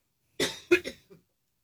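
A short bout of coughing: a few harsh, quick bursts close together, the last one fainter, with silence before and after.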